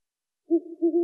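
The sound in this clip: Owl hooting: a single low, mellow hoot in two quick pulses, heard alone after silence.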